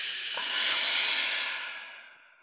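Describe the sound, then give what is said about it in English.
A deep exhale through the mouth during a breathing exercise, a broad breathy hiss that swells briefly and then slowly fades away as the breath empties out. “And now through your mouth, exhale all the way out.”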